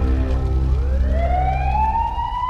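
An ambulance siren arriving at the scene of a fire accident sweeps steadily upward from a low wail to a high, piercing tone. It is loud and sounds over a low rumble.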